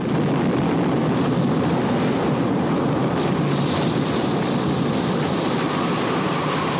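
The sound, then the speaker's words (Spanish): A large wave crashes over a fishing boat and coastal rocks. The water and wind make a steady, loud roar throughout, with no distinct single impact. “La ola alcanza la primera fila de escollos cuando los hombres llegan a la costa. Todos se lanzan al suelo, la ola cae sobre el barco y sobre ellos agarrados a la roca.”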